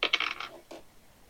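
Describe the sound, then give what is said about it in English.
Dice roll during a tabletop role-playing game, a quick run of sharp clattering knocks followed by one more tap after a brief pause, then fading into quiet. “And I roll, let me find a goddamn dice.”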